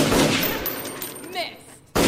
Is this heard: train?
no

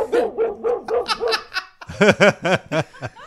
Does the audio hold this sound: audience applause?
no

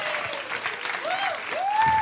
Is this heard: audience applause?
yes

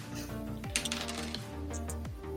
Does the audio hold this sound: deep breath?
no

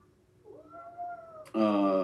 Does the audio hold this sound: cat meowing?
yes

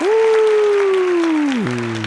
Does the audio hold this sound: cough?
no

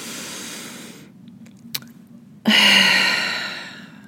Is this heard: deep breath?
yes

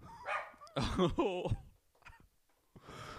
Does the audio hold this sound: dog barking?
yes

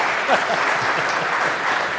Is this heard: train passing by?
no

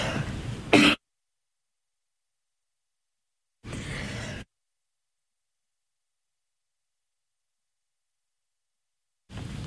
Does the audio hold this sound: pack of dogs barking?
no

